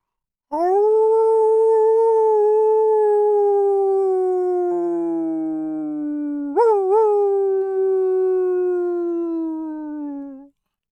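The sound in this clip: Wolf howling as a storytelling sound effect: one long, loud, sustained howl that slowly sinks in pitch, a lower howl joining briefly midway, then a sharp upward break before the cry trails off.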